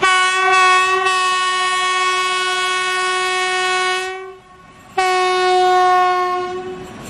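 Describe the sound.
A train sounds its horn as it departs a station: a loud, sustained, steady-pitched blast lasting about four seconds, a brief gap, then a second long blast.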